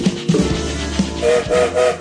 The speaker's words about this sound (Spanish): sonó el silbato, como todos los días, el tren se pone en movimiento